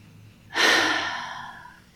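A single big, deep breath drawn in, a sudden airy rush that swells quickly and then slowly fades over about a second and a half, alone with no talk.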